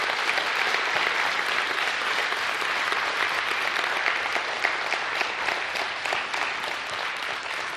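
Warm applause welcomes new members at a service: dense, steady clapping from a crowd that holds an even loudness for the whole stretch without fading.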